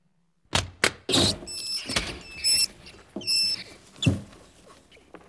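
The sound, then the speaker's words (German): Caged mice squeak in a laboratory, giving a few clusters of thin, high chirps amid rustling, scratching and soft knocks. No voices are heard. “Überall Käfige mit Mäusen.”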